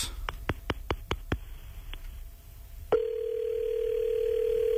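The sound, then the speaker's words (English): A telephone being dialed: a rapid run of six sharp clicks, then a single fainter click, followed by a steady, loud, low tone that holds unbroken to the end. “I'm going to dial this number here.”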